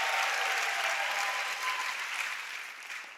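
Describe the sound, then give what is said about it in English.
A church audience applauding: steady, dense clapping that runs throughout and softens slightly toward the end. “if you love Jesus, can you put your hands together?”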